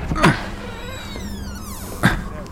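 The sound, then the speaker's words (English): A door creaks open with a drawn-out, high, wavering squeal that bends up and down in pitch for about a second, framed by two brief louder sounds at the start and end. “Should we just enter? Let's just wait another moment. It's open.”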